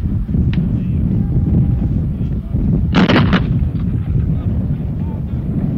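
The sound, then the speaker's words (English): A heavy gun broadside blasts out from a battery of heavy howitzers firing salvos: one short, sharp crack and boom cuts through the middle, over a constant, loud rumble of wind. “Another broadside is about to be fired here.”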